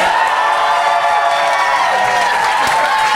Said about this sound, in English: But if you think Esther and Ben made the best case, please applaud now.